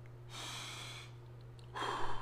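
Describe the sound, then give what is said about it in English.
A church audience draws a long, soft breath in together, pauses, then lets it out in a louder breathy exhale; the sound is faint and hushed. “Take a deep breath, everybody. Let it out in the name of Jesus, we do.”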